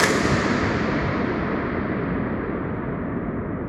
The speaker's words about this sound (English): here is what it sounds like if a balloon were to pop inside of an empty 2-million-gallon water tank at Fort Worden State Park in Port Townsend.